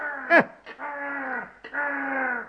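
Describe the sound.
A raven caws in a fairy-tale audio play. One short, sharp call is followed by two long, hoarse, drawn-out cries that sag slightly in pitch, with no talk.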